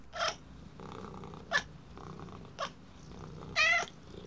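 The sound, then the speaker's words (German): A small black-spotted tomcat kitten purrs while being held in someone's arms. A soft, steady, low rumbling purr runs throughout, broken by four brief, brighter, louder bursts at roughly even intervals. “Der kleine Kater mit dem schwarzen Fleck.”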